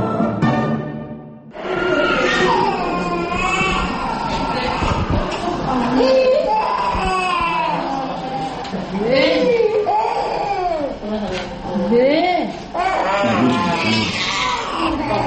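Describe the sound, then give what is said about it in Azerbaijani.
Infants crying in a medical centre, loud and sustained wailing with sobbing swoops of pitch that keep going after a short quiet start. “Simiya mərkəzində ancaq körpələr belə yanğılı ağlayırlar. Bir az böyüklər artıq öyrəşiblər.”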